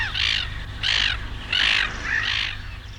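Four harsh, raspy caws come from a bird common in Icelandic nature. They repeat at an even pace, loud and alone over a low background rumble.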